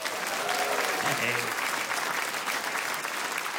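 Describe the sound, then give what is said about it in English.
Audience applause welcoming comedy performers from a show at the Edinburgh Fringe: continuous, even clapping for several seconds, with some voices mixed in. “Please give them a warm welcome.”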